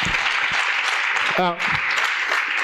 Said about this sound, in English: Let's clap hands for him.